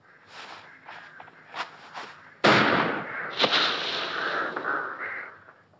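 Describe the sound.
A single loud rifle gunshot cracks out after soft rustling and shuffling, leaving a long noisy tail behind it.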